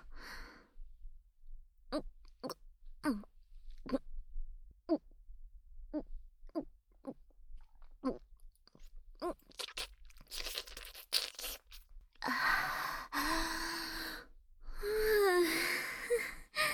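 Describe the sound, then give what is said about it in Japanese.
Water being drunk during an ASMR stream: a series of soft, separate swallowing clicks and mouth sounds in near silence, then longer, louder breathy bursts. “私にもちょうだい。ASMR 配信は、水分補給も見せ場の一つっと。”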